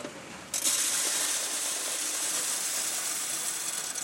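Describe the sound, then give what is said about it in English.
A coin mint machine in Berlin drops shiny new euro coins into a sorter. A dense, steady metallic rush and hiss cuts in abruptly and runs on without pause. “At a coin mint in Berlin, a machine spits shiny new euro dollars into a sorter.”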